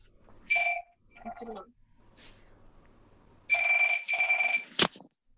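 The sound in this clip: A telephone rings with bursts of high, steady electronic tones, one short burst near the start and a longer repeated stretch later, followed by a sharp click near the end.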